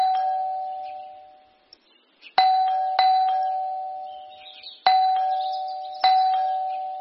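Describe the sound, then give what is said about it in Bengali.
A doorbell mounted beside a door rings repeatedly with bright, bell-like tones that fade slowly. One ring is already dying away at the start, then four more sharp rings follow at uneven intervals, each fading out. “দরজার পাশে লাগানো calling বেলটা বাজালো”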